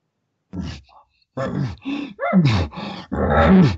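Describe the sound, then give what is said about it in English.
A man's voice imitates a bull's heavy panting call, breathing hard into a tube with a reed in his mouth for a slight squeaky vibration. It comes as a few breathy, groaning bursts separated by short gaps, growing longer and louder toward the end. “And so he's breathing heavy and he's panting into the tube. Sometimes I'll use a reed in my mouth.”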